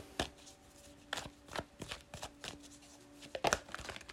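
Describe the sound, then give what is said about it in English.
Tarot cards being drawn and shuffled from a deck give off a few crisp papery snaps and slides, spaced irregularly, with a faint steady hum underneath. “Next card out, Nine of Swords.”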